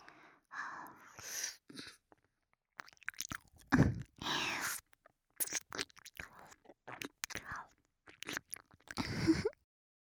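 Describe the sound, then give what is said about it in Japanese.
Crunchy nibbling and scraping bites as teeth clamp and rub back and forth, many short crisp bursts in a busy irregular rhythm with brief pauses between, no talking. “挟んだ歯でコリコリって何度もこするように噛んで、”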